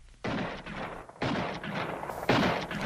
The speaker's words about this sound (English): Suddenly, I heard shots far ahead of me.